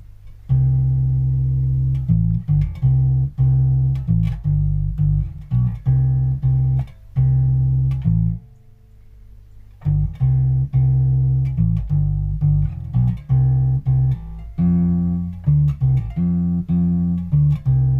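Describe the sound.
Guitar played solo through a rock tune: many plucked notes and ringing chords in a steady rhythm, loud and continuous, with a brief quieter gap partway through before the playing resumes.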